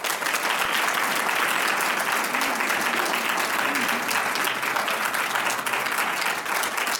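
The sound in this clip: An audience applauds to welcome a speaker at a datathon presentation at the National Gallery of Art, with dense, steady clapping that holds at an even level throughout.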